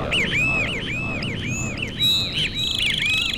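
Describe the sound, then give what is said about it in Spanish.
A great kiskadee calls at dawn by the sea, with many bright, arched, repeated notes in a steady rhythm over a constant rushing background noise. “Ya el venteveo, ave indiscreta y madrugadora, nos anuncia su llegada, despertando con su aviso a los pájaros que habitan a la orilla del mar.”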